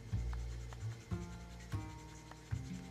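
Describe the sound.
Stylus strokes on a Boogie Board LCD writing tablet: faint rubbing scratches with a few soft, low bumps as the pen presses and lifts, quiet and alone.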